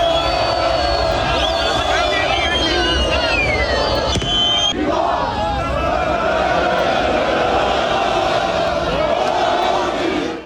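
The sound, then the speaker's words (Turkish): Galatasaray fans singing and cheering at a championship celebration for the Süper Lig title in a European city, a loud, dense mass of voices chanting together in a sustained roar for the whole stretch. “Avrupa'nın birçok kentinde de Galatasaray'ın şampiyonluğu için kutlamalar yapıldı. Taraftarlar şampiyonluk şarkıları söyledi.”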